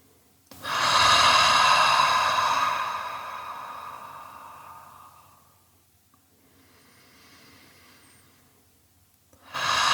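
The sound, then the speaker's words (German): A deep breath in and an audible exhale at the start of a guided meditation: one loud, long, airy breath that slowly fades, then a softer, quieter breath, and another strong breath starting right at the end. “Nimm einen tiefen Atemzug, fühl deinen ganzen Bauch- und Brustraum und atme dann ebenso tief und gerne auch hörbar aus.”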